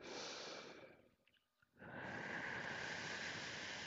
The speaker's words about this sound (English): We're going to take a few deep breaths.